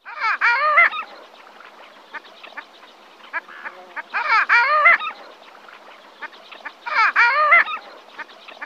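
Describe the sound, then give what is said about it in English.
A diving duck that winters on open ocean and large freshwater lakes gives loud calls. Three bursts of harmonic, yodelling calls are separated by quieter, rapid clucking notes. “These birds winter in our area on open ocean and large freshwater lakes. They are one of very few diving ducks who make a substantial call.”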